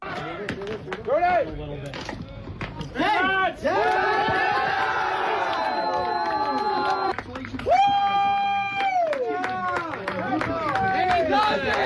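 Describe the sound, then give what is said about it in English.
Baseball players of the Moose Jaw Miller Express shouting, whooping and cheering in their dugout as a teammate sets a stolen-base record, with loud overlapping voices throughout. “Those were the sounds coming from the Moose Jaw Miller Express dugout when Thomas Soto set the record, stealing second early in the game.”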